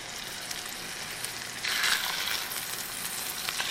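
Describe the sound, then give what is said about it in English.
Salted salmon sizzles as it goes into hot butter and oil. A steady frying hiss swells sharply when the fish enters the pan, then settles into a dense, crackling sizzle with no voices. “And we salted both sides of the salmon. Yeah, so now I'm putting the fish into the oil.”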